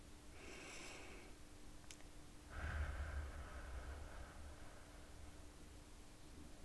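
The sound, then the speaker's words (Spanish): A person inhales deeply during a guided breathing exercise. The intake is soft and airy, with a stronger, fuller breath partway through, and it is very faint against a hissy background with no talking. “Inhala.”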